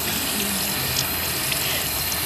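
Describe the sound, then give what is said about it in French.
Tap water running steadily into a sink for hand washing with soap, a constant bright splashing rush that stays even and fairly loud throughout with no talk. “Donc ça commence par le savon. Avec l'eau. Ah, et l'eau.”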